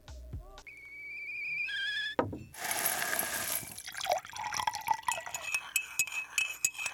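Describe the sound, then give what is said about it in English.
Nescafe coffee being prepared: a few bright glassy clinks, then a rushing pour of liquid and a run of splashy, bubbling and dripping sounds, fairly quiet. “That's the sound of a Nescafe moment.”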